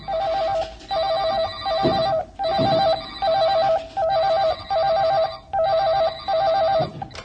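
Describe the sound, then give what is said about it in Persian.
Telephones ringing together in an office, with a bright electronic trilling ring repeating in many even bursts and short breaks between them. The sound is loud and steady, and no voices are heard. “همه ی تلفن ها شروع میکنن به زنگ زدن.”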